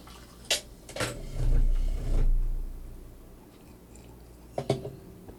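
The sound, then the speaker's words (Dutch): A person drinks from a container: a few soft clicks, then two low, wet swallowing swells, a quiet stretch, and more faint clicks near the end. “Jongen, ik moet een beetje drinken van dat ding.”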